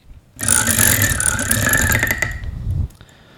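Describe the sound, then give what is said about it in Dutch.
A wheel is spun by hand, giving a loud, dense rattle of rapid ratcheting clicks that runs steadily for about two and a half seconds and then stops abruptly. “Dus zal ik eens aan het rad gaan draaien? Ja, Draai eens aan het rad.”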